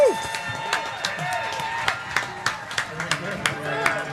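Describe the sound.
Scattered hand claps from an audience welcoming Margo Price onto a stage: many sharp claps in an uneven rhythm, fairly faint, with voices murmuring beneath them.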